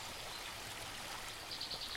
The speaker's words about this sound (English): So we're crossing Bear Creek.